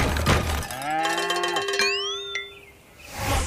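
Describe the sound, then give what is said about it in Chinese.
A calf mooing on a farm, one drawn-out moo whose tone bends upward in pitch, with a brief metallic clink partway through. “农场里面有小牛，咿呀咿呀哟。”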